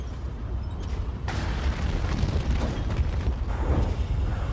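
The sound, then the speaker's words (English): Bursts of flame roar up in a film scene set in a city near a tall tower, a deep rumbling, loud roar that holds throughout and swells in a few surges. “Bursts of flame shoot up at regular intervals nearby.”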